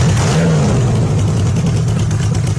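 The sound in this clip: Motorcycle engine revving in a loud, continuous low rumble that holds steady throughout, with a slight upward surge in pitch early on.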